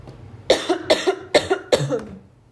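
Coughing from someone who swallowed down the wrong pipe: four harsh, throaty coughs in a quick, even rhythm, fairly loud and alone, before fading to quiet.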